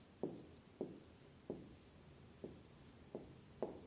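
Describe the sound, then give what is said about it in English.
A pen or marker writes during a sermon with six short, faint scraping strokes at a fairly regular pace, each a quick scratch standing out from a quiet background. “I'll just write that because I'm going to need some more room.”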